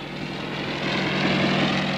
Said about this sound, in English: It's a recording of a helicopter.